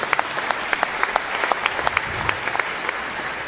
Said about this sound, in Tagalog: Palakpakan po natin sila.